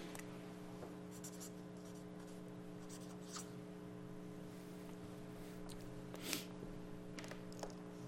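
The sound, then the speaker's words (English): A name being written with a blue marker, faint scratchy squeaks of the tip moving over a surface above a steady low hum. “I've got to use the blue. I had another blue. Oh, there we go. Yep. Needy, let me write his name.”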